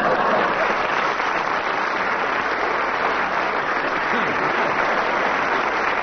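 Audience applause welcoming the panelists at a comedy panel game, a sustained, even wash of clapping from a large crowd that holds at a steady level alone throughout.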